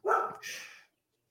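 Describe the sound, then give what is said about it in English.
A dog barks twice in quick succession, two loud, rough yaps that stop abruptly into silence. “These dogs. Nothing. Is that your dog? I think that might be my dog.”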